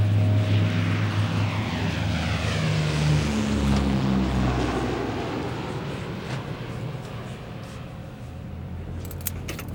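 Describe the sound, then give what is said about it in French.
Fairchild aircraft taking off, a loud propeller-engine roar with a low droning hum that shifts in pitch, then slowly fades and thins out over several seconds, with no voices. “Après quelques atermoiements, à 14h18, le Fairchild a donc redécollé.”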